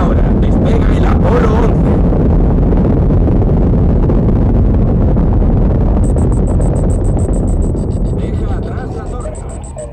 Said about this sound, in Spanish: Se encienden los motores. Despegue. Se inicia el despegue.